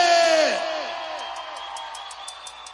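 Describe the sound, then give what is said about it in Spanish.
A live audience at a cumbia concert shouts and cheers in one loud burst that gradually fades into a lower crowd roar. “vamos a brindarle un grito bien fuerte para mi hermano Cecilio”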